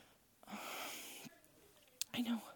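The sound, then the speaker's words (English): Heavy breathing of someone catching their breath: a long, breathy, wheezing exhale, then quieter pauses and a few short sharp gasps and snorts, all fairly faint. “I know, I'm trying to catch my breath.”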